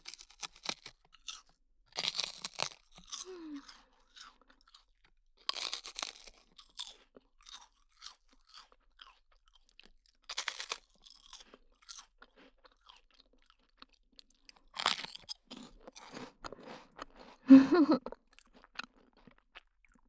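Crisp crunching and chewing of a milk rice cracker: many dry, brittle bites and grinding chews spread irregularly across the stretch, with a few louder crunch bursts standing out and no talk.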